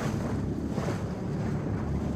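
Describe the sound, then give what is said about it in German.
A boat travelling up a river, heard as a steady, dense rumble of engine and rushing water with a windy hiss, loud and unbroken throughout and with no voices. “Ich dachte, wenn wir schon zusammen diesen Fluss hier hochfahren”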